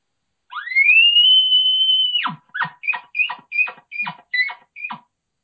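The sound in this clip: Human voice imitating a small bull's call for competition calling: a high, whistling tone rises and holds for under two seconds, then breaks into a quick series of short, sharp grunts.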